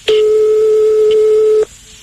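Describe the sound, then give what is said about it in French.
A telephone line tone sounds as a call is placed to a man's home: one steady, moderately high tone holds for about a second and a half, then cuts off abruptly, leaving a faint, lower hum behind. “Donc, on va appeler chez lui.”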